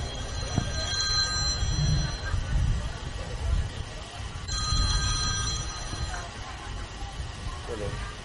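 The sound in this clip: A telephone rings during a religious study gathering in two bursts of bright, bell-like ringing, one at the start and one midway. A low hum of voices runs underneath throughout.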